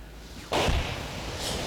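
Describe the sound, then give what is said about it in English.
A single explosion from a house being blown up as a firebreak to stop a spreading city fire: a sudden dull blast that leaves a lingering low rumble and hiss. “It's to save the tower, Lizzie. They're blowing up houses round it so the fire has nothing to burn.”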